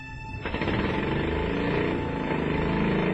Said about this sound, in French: Et ça, c'est l'échappement, hein?